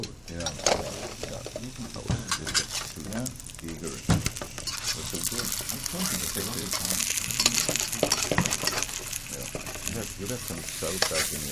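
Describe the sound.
French fries fry in hot oil with a dense, continuous sizzle and crackle throughout, while voices talk over it.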